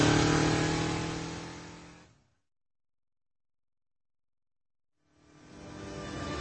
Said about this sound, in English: swung the swoop into a wide turn and hit the throttle